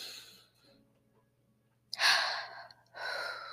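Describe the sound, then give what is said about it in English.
A deep, shaky breath, heard alone after near silence: one loud, breathy rush of air, a short pause, then a second long breath. “Maybe I should have introduced a deep breath so y'all could have took it with me. Okay, deep breath.”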